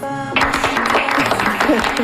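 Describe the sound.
Studio audience applauding during a quiz, a dense, steady clatter of clapping that bursts in suddenly after a brief tonal note and continues to the end, with voices mixed in.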